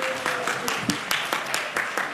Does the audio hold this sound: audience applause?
yes